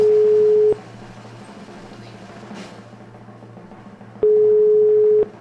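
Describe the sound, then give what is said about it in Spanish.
Ringback tone of an outgoing telephone call: two long, steady, low-pitched beeps, one at the start and one near the end, separated by a long quiet gap with only faint line hiss. “Ahí está marcando. Parece. Está marcando.”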